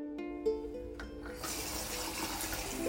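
Tap water runs into a sink as underpants are hand-washed while traveling in Bali. A few soft clinks and a faint tone come first, then a loud, steady hiss of flowing water continues to the end.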